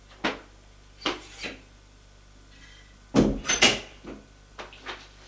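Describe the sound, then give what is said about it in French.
A glass door is opened: a few sharp knocks and clatters separated by quiet gaps, then a louder cluster of rattling, clinking impacts, and a couple of softer taps at the end. “Il ouvre une porte vitrée.”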